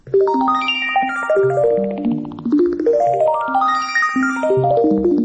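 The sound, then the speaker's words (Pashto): An iPhone 15 ringtone plays a bright chiming melody of quick bell-like notes, and the phrase sounds twice in a row at a loud, even level. “دا د آیفون 15 زنګ دی، دا هغه تلیفون چې په امریکا کې لانجه پیدا کړې ده.”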